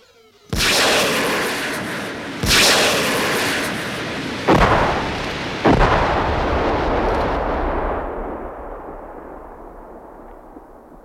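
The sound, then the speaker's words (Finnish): Heavy gunfire aimed at hills from a craft trying to land, heard as four loud booming blasts spaced a second or two apart, each trailing into a long rolling rumble that slowly fades. “Ampukaa nuo kumpareet helvettiin, että päästään laskeutumaan!”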